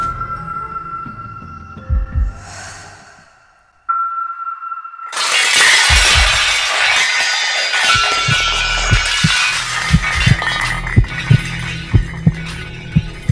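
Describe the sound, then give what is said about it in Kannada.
Stacked kitchen vessels suddenly fall in a loud crash and a long, clattering jumble, after a low hum and a steady tone. A slow, heartbeat-like throbbing pulses beneath the clatter toward the end. “ಅಡುಗೆ ಮನೆಯಲ್ಲಿ ಜೋಡಿಸಿದ್ದ ಪಾತ್ರೆಗಳು ಇದ್ದಕ್ಕಿದ್ದಂತೆ ಕೆಳಗಡೆ ಬಿದ್ದು”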